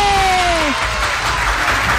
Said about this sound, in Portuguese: Cadê as palmas pro grupo jovem que acabou de nascer?